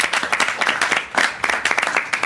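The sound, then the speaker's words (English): A round of applause from a group of fans: dense, overlapping hand claps at a steady, fairly loud level, with small swells throughout. “Round of applause.”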